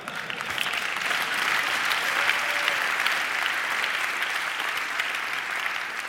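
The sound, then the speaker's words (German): Audience applause at a talk: dense, continuous clapping from a crowd that holds an even loudness for about six seconds, with no clear voices over it. “ihr klatscht jetzt, das ist aber nichts Gutes.”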